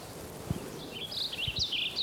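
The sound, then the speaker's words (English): Wilson's Warbler song: faint, high-pitched chattering chirps in the second half, over a quiet hiss with a few soft low thumps. “One, Wilson's Warbler,”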